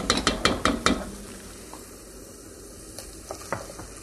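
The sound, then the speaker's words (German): Food being stirred in a pot: a few sharp metallic clinks of a utensil striking the pot open the scene, followed by a faint, steady sizzle with a few scattered light taps. “Ja, schön umrühren. Ja, dass das ein bisschen auch ruhig mit angeht.”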